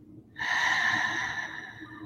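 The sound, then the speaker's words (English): A deep breath drawn slowly and steadily, a long, airy, breathy rush of air that holds at an even, moderate level for nearly two seconds. “And I want you to just take a deep breath in and out.”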